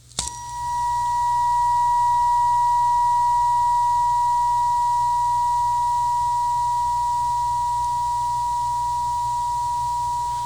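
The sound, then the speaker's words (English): A steady, pure test tone played for microphones sounds at a single mid-high pitch, switching on abruptly and holding loud and unwavering for about ten seconds over a faint low hum. “let us know if that tone actually showed up through the mics. I know it's a little bit of a sound difference depending on the way you were holding it”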